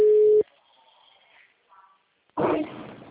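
A telephone ringing tone plays while a call connects: a single steady, mid-pitched tone lasts about half a second and cuts off, followed by near silence with faint low sounds, then a sudden louder, rough burst near the end.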